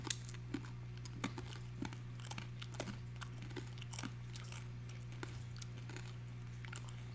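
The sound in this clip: Crunching bites into a hard, dense seaweed rice cracker: a few faint, sharp cracks scattered over several seconds, above a steady low hum, with no talking.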